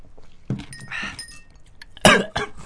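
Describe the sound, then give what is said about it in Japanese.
Coughing from someone who choked on shaved ice: a few harsh, raspy coughs in separate bursts with quieter breathy rasping between them, loud and unaccompanied by speech. “むせんだし 喉冷たくなると咳止まらなくなる”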